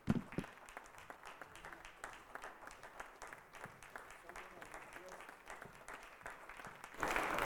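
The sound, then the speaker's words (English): A church audience applauds to welcome a preacher during a service, with brisk, continuous clapping under voices, growing louder near the end. “Let's put hands together for Jesus as we welcome God's servant.”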